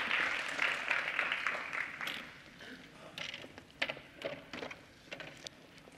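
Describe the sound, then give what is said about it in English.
An audience at a church gathering applauds two women being welcomed, a dense burst of clapping that fades after about two seconds, followed by voices talking. “Let us put our hands together to welcome Sharon and Helen.”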